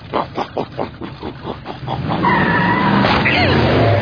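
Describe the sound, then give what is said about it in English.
A supercharged riding mower drives off: the engine sputters in several rhythmic bursts, then breaks into a loud, sustained roar with a high screeching whine, like a skid. “I supercharged my riding mower!”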